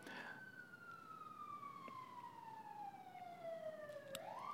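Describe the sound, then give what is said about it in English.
A faint emergency-vehicle siren wails in one long tone that slides slowly downward for about four seconds, then abruptly sweeps back up in pitch. “sorry, the siren is distracting me.”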